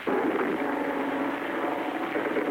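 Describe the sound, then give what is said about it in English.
Japanese bomber aircraft flying over Manila during an air raid make a steady, loud droning roar that holds level throughout, with no breaks or separate events. “Manila has just been bombed. Japanese bombers...”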